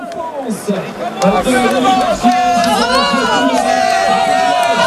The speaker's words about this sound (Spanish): Se le oye más al público que a él abrazándose con sus auxiliares.